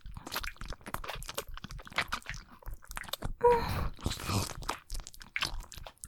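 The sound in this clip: Food being eaten close up: many rapid, crisp crunches and wet chewing sounds in an irregular rhythm, fairly quiet overall.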